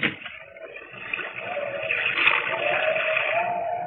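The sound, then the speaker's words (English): Waves crash over a ship's decks in rough weather, a continuous rushing roar of water that swells after the first second and stays heavy and churning to the end, with no voices. “Pretty rough weather tonight. Waves are breaking clear over the decks.”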